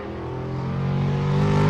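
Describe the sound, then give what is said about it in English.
Race car engine drones during a stock car qualifying time trial, a steady, harmonic-rich growl that builds gradually in loudness across the short clip, with no voices. “Scott had just completed a time trial to qualify for the Milk Bowl at Thunder Road in Barrie.”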